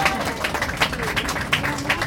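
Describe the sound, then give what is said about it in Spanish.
Audience applause after a play: dense, steady clapping from a crowd, continuous throughout, with a few sharper claps standing out from the wash. “Aplausos para ellos.”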